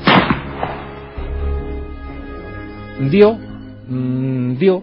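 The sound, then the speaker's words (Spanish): An arquebus gunshot cracks sharply at the very start and decays quickly, followed by voices and sustained tonal sounds. “Dicho esto, el primer marañón disparó su arcabuz.”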